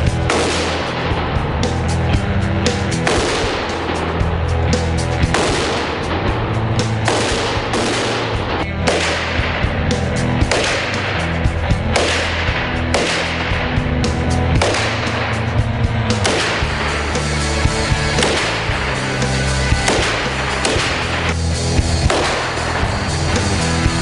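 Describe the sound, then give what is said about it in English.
Full-auto rifle fire at a shooting session, a long stretch of rapid, loud bursts with many sharp shots packed tightly together and barely a pause, with no talking. “has chosen the full auto rifle to fire first.”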